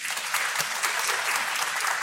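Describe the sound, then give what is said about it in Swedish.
An audience claps to vote for a theory, a dense, continuous wash of applause that holds steady and fairly loud for the whole stretch without pausing. “ni klappar nu”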